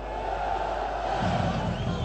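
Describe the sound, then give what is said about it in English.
Crowd cheering Turkish leader Erdogan outside his party headquarters in Ankara: a sustained roar of many voices with shouting, thickening into a fuller, deeper swell partway through. “In Ankara tonight, Erdogan addressed a cheering crowd outside his party headquarters.”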